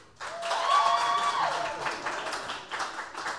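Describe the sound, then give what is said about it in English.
Audience applause for a contestant at a prize contest: a soft, even wash of clapping that holds steady throughout without fading away. “Number two. Applause.”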